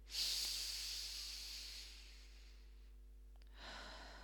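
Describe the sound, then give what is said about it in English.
A deep breath in through the nose and out through the mouth: a long, soft hissing rush of air that slowly fades, then after a quiet pause a second faint breathy rush, heard alone. “take a big deep breath in through the nose and out through the mouth”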